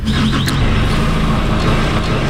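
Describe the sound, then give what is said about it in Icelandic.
Forklift engine running to lift a 400 kg pallet of barley up into a truck, a loud, steady mechanical drone that holds without a break for the whole moment, with no voices over it. “Það setur hann lyftaran í gang til þess að skjóta brettinu upp í bílinn”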